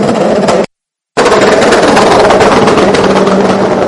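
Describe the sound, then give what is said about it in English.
Pneumatic air guns change the tyres on a racing car during a pit stop. They make a loud, continuous, dense rattling buzz that cuts out briefly near the start and then resumes. “the team very much going to work doing the tyres. You can hear the air guns in the background.”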